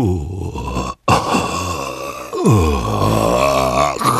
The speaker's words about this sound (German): Woher kam dieses grässliche Stöhnen? Jetzt war er sicher. Da war etwas unter seinem Bett.